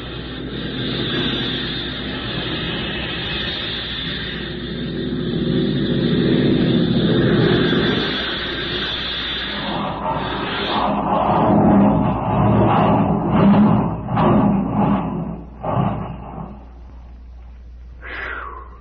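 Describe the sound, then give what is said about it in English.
A fixed-wing aircraft makes a wheels-up belly landing in a crosswind over the Arctic, a steady roaring engine drone giving way to a series of rough scraping bursts and heavy thuds before the noise drops away. “We'll have to keep the wheels up. Make a belly landing.”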